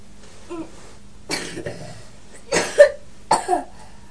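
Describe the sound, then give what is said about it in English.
A small, poorly child coughs in a few separate fits, each a quick cluster of rough, breathy hacks with pauses between them. A faint vocal sound comes before the first fit. “You're coughing a lot, aren't you?”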